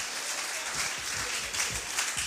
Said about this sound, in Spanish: Y si ese aplauso va a ser para él, ¿qué le parece si se lo damos con todo el corazón?